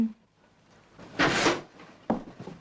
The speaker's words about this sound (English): Shall I pull the curtains open?